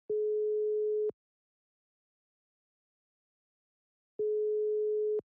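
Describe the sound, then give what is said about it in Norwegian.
Telephone ringback tone sounds while calling a guest: two steady, mid-pitched tones, each about a second long, separated by a few seconds of silence. “Så det er bare å ringe han dette.”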